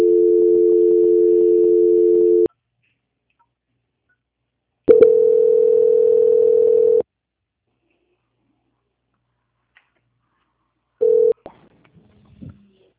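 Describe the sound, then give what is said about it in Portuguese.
Telephone line tones while a call is being transferred: a steady, loud electronic hum sounds for a couple of seconds, stops, returns for about two seconds, then comes once more as a brief burst, followed by a few faint clicks. “Estou transferindo a ligação.”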